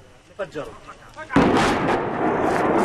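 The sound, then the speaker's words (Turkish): A sudden, loud blast of explosives demolishing a house in the West Bank breaks in after brief voices and becomes a dense, sustained roar of rumbling debris that holds steady to the end. “Patlayıcı yerleştirilen ev saniyeler içinde yıkıldı.”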